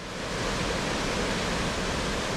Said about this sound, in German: Ab und zu stürzt das Wasser über ein großes Wehr.